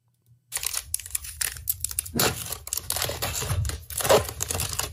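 Crinkling and tearing of a foil pack of 2020 Bowman Chrome baseball trading cards as a kid rips it open: a steady run of many irregular crackling, crunching bursts, loud and close.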